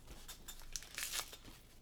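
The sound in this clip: Paper tearing as an envelope is ripped open: a few quiet, crinkly rips, with the sharpest tearing near the middle.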